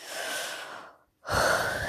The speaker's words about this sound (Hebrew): תנשמו עמוק, 5 נשימות.